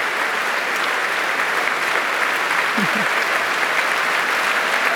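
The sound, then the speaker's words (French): Steady, dense applause from a concert hall audience after an orchestral competition performance, holding at an even level throughout, with a brief faint shout rising out of the clapping near the middle. “Là, vous entendez quelques bravos qui fusent dans la salle.”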